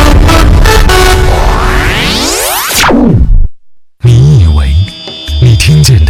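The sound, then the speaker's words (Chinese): City street traffic with car horns honking: a loud rising whoosh climbs sharply and cuts off into a brief silence, then blaring, wavering horn tones sound over a rumbling traffic background. “只是城市车水马龙， 你听到的是城市的脉络律动。”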